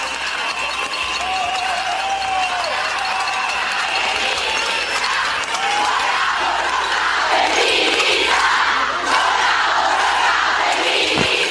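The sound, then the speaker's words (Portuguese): Crowd chanting feminist strike slogans during a demonstration in Bilbao. Many voices shout together in a loud, sustained roar that swells in the second half. “Lo que están oyendo son los gritos de viva la huelga feminista, Gora.”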